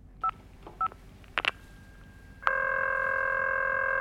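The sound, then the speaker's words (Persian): Buttons are pressed on an answering machine to replay a message: two short electronic beeps and a couple of sharp clicks, then a steady electronic tone starts abruptly and holds to the end. “دکمه تکرار را فشار می دهد و برای بار سوم پیغام را گوش می دهد.”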